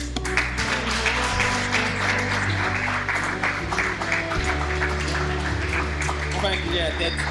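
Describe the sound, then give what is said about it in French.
A church audience applauding and acclaiming God, with steady scattered clapping and raised voices over sustained low instrumental chords that shift a few times. “Est-ce que quelqu'un peut dire gloire à Dieu? Dis encore gloire à Dieu. Et acclamons le Seigneur.”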